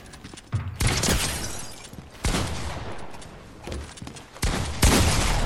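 Gunfire in the Fortnite video game: several loud, crackling bursts of shots separated by quieter stretches, each burst starting abruptly and fading over a second or so.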